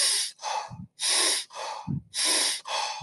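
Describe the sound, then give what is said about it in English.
Rapid energising breathing exercise with one-second inhales and exhales: three quick pairs of loud, airy breaths in an even rhythm, with a short low puff after each pair. “First is a good energetic breath for the early morning. I call it a coffee breath, but it's a 1 second inhale and 1 second exhale.”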